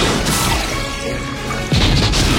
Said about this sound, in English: Fire torpedoes! Fire torpedoes!